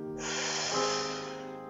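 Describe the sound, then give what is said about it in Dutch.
A deep breath drawn in during a relaxation exercise: one long, steady, airy inhale lasting well over a second, soft and breathy. “En haal nog een keer diep adem.”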